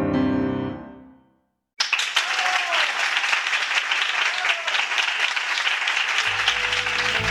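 An audience applauds after a concert piece that closes the first half. A final note fades into a moment of silence, then dense, steady clapping bursts in suddenly and continues at an even level to the end.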